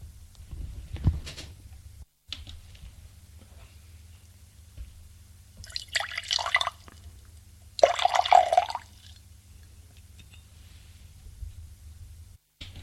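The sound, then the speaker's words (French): A drink is poured into a glass in two short liquid bursts with a splashing, gurgling texture, set against an otherwise quiet, low hum. “Jacques s'arrête pour se servir à boire.”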